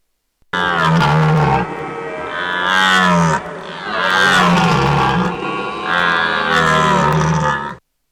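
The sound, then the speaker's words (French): Loud, drawn-out grunts of a wild boar, a few long rasping calls with a rough harmonic tone that rises and falls, heard alone without talk. “Écoutez, même le sanglier écoute Radio Terre.”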